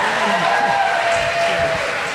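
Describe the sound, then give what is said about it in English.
Audience clapping at a live comedy quiz event gives a broad, steady wash of many hands. It stays fairly loud and continuous throughout. “Clap if you like pandas.”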